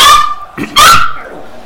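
A dog barks at a football match played without spectators, giving a few loud, high-pitched, whiny yips in quick succession.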